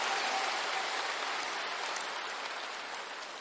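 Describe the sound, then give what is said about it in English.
A church audience applauds in a dense, continuous wash of clapping that eases off slightly toward the end. “Give God another big hand one more time if you can,”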